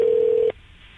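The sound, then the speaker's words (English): A single telephone keypad dialing tone during a prank call: a steady, pure beep lasting about half a second that cuts off abruptly into quiet. “That's the number I dialed on my phone.”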